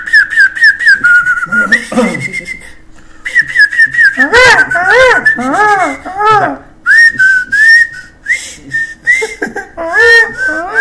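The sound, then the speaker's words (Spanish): Bird calls played on a radio program, heard as loud, high, whistle-like chirps and warbles repeating in many quick bursts throughout, with some rising and falling trills and no talking over them. “Son pájaros.”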